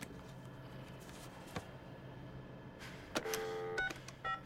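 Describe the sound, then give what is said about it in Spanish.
Telephone dialing tones as a guard keys in a number from a business card: a few short electronic beeps near the end, faint over a steady low background hum. “Hace la llamada mientras mira a Ji-hun.”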